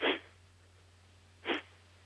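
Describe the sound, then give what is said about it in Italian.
Forceful exhalations through the nostrils, like blowing the nose, come from a slow breathing exercise: two short, sharp nasal bursts about a second and a half apart, over a steady low hum. “proviamo a fare questa respirazione in cui buttiamo fuori l'aria solo delle narici, come se ci soffiassimo il naso”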